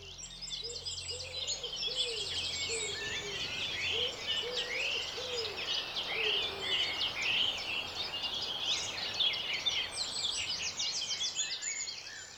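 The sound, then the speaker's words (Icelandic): Birdsong chorus at sunrise in Iceland's East Fjords, many overlapping high chirps, trills and whistles forming a continuous dense wall, with lower repeated call notes through the first half. “Þannig að á hverjum degi byrjar kór að fuglasöngu á Austfjörðum sem svo berst með morgunsólinni vestur eftir landinu.”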